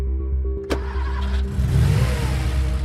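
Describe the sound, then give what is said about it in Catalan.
A Porsche car engine in an underground car park gives a low, steady rumble, broken by one sharp click early on, then grows louder and rougher as it revs. “A l'aparcament subterrani, el Porsche.”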